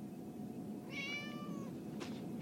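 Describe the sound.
A cat gives one short, high, tonal meow, fairly faint over a steady low background rumble.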